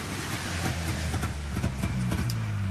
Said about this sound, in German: Endlich fuhr vor dem Gefechtsstand ein Wagen vor.